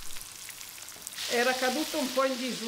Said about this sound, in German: Der panierte Fisch wird angebraten.